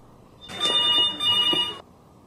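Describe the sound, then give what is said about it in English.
A telephone rings in two bright, trilling bursts separated by a brief gap, loud and alone, then stops. “Well, that was a phone ringing. It was a very particular phone.”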